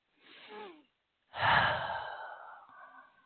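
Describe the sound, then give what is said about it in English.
A big deep breath after running down stairs: a short, soft inhale, a pause, then a longer, louder breathy exhale that trails off gradually. “So with that, I'm going to take a big deep breath”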